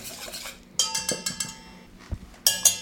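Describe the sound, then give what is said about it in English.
A whisk mixing dry ingredients with freshly ground pepper in a bowl, giving a few irregular metallic clinks and light scrapes against the side. “And I'm gonna whisk that up. So that's my dry ingredients.”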